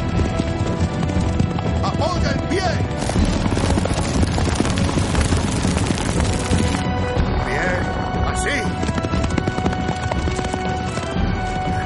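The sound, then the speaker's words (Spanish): Hooves of horses pulling a racing chariot during an ancient Roman chariot race, a loud, dense and continuous clatter of many galloping beats merged with a rumbling roar that holds steady throughout. “Benur conduce el carro de Ilderim.”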